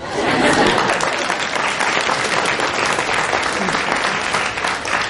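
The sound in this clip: Dense, steady applause from a studio audience on a comedy quiz panel show, sustained at an even, loud level for about five seconds with no pause or talk.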